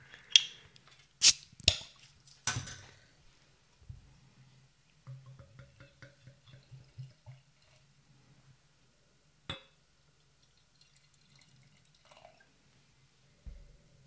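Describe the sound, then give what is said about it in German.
A bottle of hoppy, fruity beer brewed with Magnum, Centennial, Simcoe, Citra and Amarillo hops is opened. A few sharp clinks and hissing bursts come first, then quieter dripping and liquid sounds with faint low hum, and no voices. “Dann mache ich mal die Flasche auf.”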